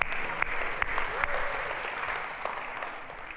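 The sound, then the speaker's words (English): A church audience applauds during a Missions Month service, giving a dense, continuous clapping that fills the whole moment and eases off slightly toward the end. “You know, the way you guys worship and the way you welcome the Lord, the Lord's presence this morning, you guys are awesome. Give yourself a hand.”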